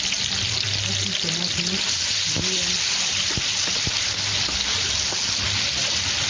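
Tomatoes fry in a pot, giving a steady, loud sizzling hiss that runs throughout, broken by a few sharp clicks as the mixture is stirred.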